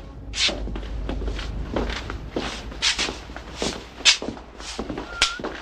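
People walk through an office, a man led at gunpoint, their footsteps forming a continuous run of many soft, evenly spaced steps. A faint low hum sits beneath them, and no one speaks.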